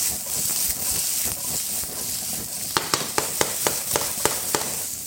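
Onions and bacon sizzle in a pan with frying potatoes: a steady, bright hiss runs throughout, joined in the second half by a run of sharp, regular clicks.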